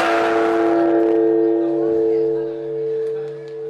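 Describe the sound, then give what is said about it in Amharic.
A large Buddhist temple bell in Tokyo, struck with a rope-pulled wooden log at a New Year's Eve ceremony, rings with a deep, sustained hum of layered tones that slowly fades over several seconds. “ሰባት ነቲ ብዕንፀይቲ ዝተሰርሐ ዘንጊ ብገመድ ብምስሓብ ሓድሽ ዓመት ንምብሳርን ንምፅምባልን ነቲ ዓብዪ ደወል ቤት መቕደስ ሃሪሞሞ”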